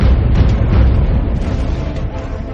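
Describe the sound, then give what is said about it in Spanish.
A volley of gunfire from the second line of advancing soldiers at the battle of Jemmingen in Flanders, heard as a loud, dense, booming rumble that swells at once and then slowly thins out. “¡A mi señal! ¡Fuego! La segunda línea, que había avanzado unos pasos, abrió fuego.”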